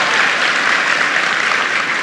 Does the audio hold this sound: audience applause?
yes